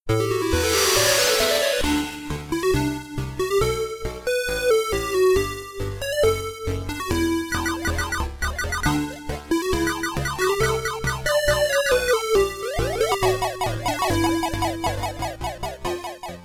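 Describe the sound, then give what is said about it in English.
Sounds from a 1986 Taito arcade video game: a noisy synthesized sweep opens into continuous electronic music, with rapid beeping melodies, bright chirps and pulsing bass tones layered throughout at steady loudness. “This game is called Halley's Comet.”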